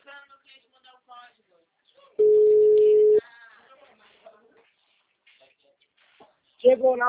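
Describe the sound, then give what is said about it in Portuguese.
Single steady telephone line tone after a dropped phone call, a flat mid-pitched beep lasting about a second, set between stretches of speech with voices before and after it. “a ligação caiu, tá me ouvindo bem?”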